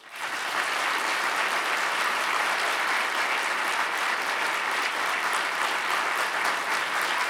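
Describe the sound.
Sustained audience applause welcomes Mayor Pete Buttigieg at a library-hosted talk. The clapping starts abruptly, then holds as a dense, even wash of sound for several seconds without letting up.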